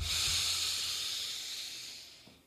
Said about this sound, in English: Okay, take a deep breath in.